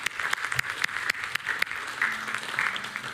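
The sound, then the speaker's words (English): A church audience claps hands in praise during a service, a fairly soft but sustained patter of many overlapping claps with scattered sharper individual claps, holding steady from start to end. “Can we give the Lord a hand clap of praise?”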